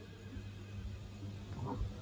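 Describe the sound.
A horse neighing as a sound effect in a radio drama: one faint, short whinny near the end over a low, steady rumble.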